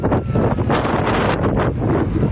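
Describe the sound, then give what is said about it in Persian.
Strong, cold autumn wind gusts around tents sheltering earthquake survivors in Zindajan, Herat, a loud, continuous roar with buffeting surges and no voices. “تقریبا هر شب و روز همین تنباد است و طوفان و سرما.”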